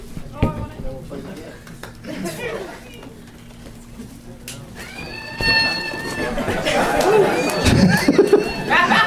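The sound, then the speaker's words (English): A slingshot flying monkey toy shot into a crowd lets out a shrill, wavering screech partway through. Lively crowd chatter and laughter continue around it, and people are talking. “And I have Wood Monkeys as per usual. And I'm going to shoot one into the crowd.”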